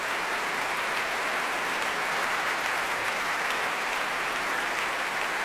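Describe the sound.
A concert audience applauds a violinist in warm reception after a performance of a major 20th-century work. The clapping is dense, even and sustained, with no break and no distinct voices.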